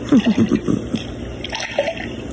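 Light splashing and dripping water as a child swims in the evening, with a few soft splashes early on followed by quieter trickles and drips.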